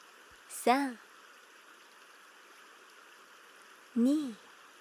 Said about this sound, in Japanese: 流れていく、水が流れていく